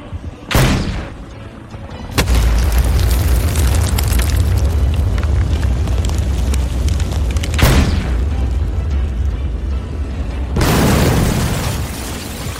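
Grenade explosions produce four loud, sharp booms, each followed by a heavy, sustained rumbling roar.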